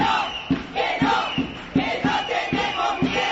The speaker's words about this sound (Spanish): Este que vas a escuchar es el sonido de la calle ayer por la tarde en Canarias.